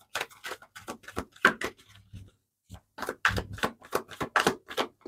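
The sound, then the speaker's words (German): A deck of tarot cards is shuffled in crisp, irregular bursts of papery slaps and riffles, broken by a short pause midway. “Ich mische die Karten mal richtig durch.”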